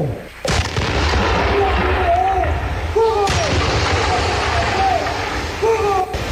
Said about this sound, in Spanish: ¡Batería, fuego!